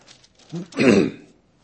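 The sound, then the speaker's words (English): A throat clearing by a speaker partway through a sermon: a brief low grunt, then a longer, louder, rough rasping clear. “I get my throat cleared here in a little bit.”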